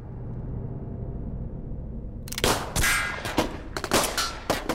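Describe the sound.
Gunshots at an indoor shooting range: after a low, steady rumble, a rapid series of loud, sharp cracks breaks out. Some of the shots come in quick pairs, and the firing goes on to the end.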